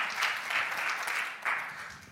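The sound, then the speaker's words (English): Brief audience applause at a church gathering, a steady burst of clapping that dips slightly and then surges again before the end. “And you need to give her a good round of applause”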